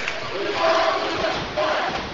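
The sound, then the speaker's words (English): Basketball crowd cheering during a game, home fans in Blackman's gym, a steady roar of massed voices that swells around the middle and again near the end. “Blackman crowd fans getting into it here.”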